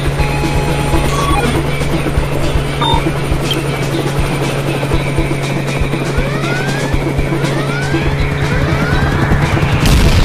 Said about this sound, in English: I don't know if I can get us away from that helicopter.